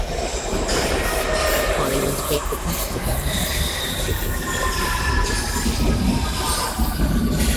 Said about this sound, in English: More authentic underground noises.